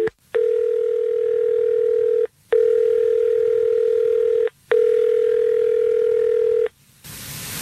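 A telephone line tone sounds as a call is placed on a morning radio show: three long, steady beeps separated by short gaps, ending in a burst of hiss.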